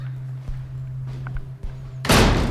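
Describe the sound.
A door that had earlier refused to open is finally opened: a few soft thunks and clicks over a steady low hum, then a sudden loud burst of broad rushing noise at the end.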